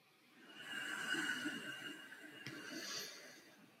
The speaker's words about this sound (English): Now I'm going to inhale.